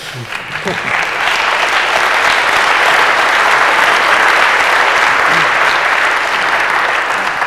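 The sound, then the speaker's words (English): Audience applause follows a panel talk about going beyond the Unix paradigm: loud, dense, sustained clapping swells quickly and holds steady for about seven seconds. “Ask for your applause.”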